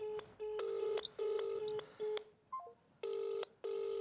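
Push-button telephone keypad tones as a phone is dialled to place calls. Many short beeps come in quick bursts of varied pitch, with a brief gap of quieter mixed tones before the last few presses.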